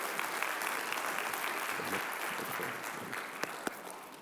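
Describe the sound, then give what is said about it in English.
Church audience applauding as a guest pastor is welcomed back to the stage, a dense, steady wash of clapping throughout, easing slightly toward the end with a couple of sharper individual claps. “So would you put your hands together, church, and would you welcome back to our stage Pastor Scott Rideout.”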